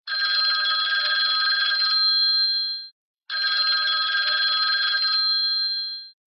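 A telephone bell rings for an incoming call in two long, shrill, steady bursts of about three seconds each, separated by a short pause. No voices are heard.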